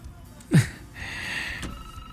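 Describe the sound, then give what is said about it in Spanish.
A telephone rings faintly: a short thump comes first, followed by a thin ringing sound lasting about half a second over low background noise, with no one speaking. “Ahí está sonando el teléfono.”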